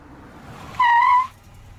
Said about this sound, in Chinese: 很快，一辆奥迪载着老齐回到了单位。